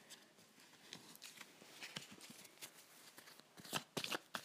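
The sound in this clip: Playing cards being shuffled: a run of quick papery flutters and soft slaps in irregular bursts, growing louder toward the end, with no talk.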